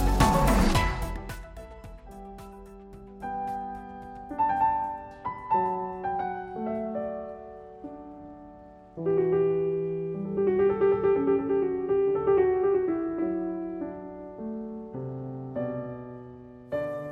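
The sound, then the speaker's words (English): Solo piano performance of a Baroque aria opens with a loud struck chord, then a slow, ornamented melody of sustained, ringing notes over a quiet bass line, steady and unaccompanied throughout. “What you are hearing now is the aria from Bach's Goldberg Variations, performed by Im Yun-chan”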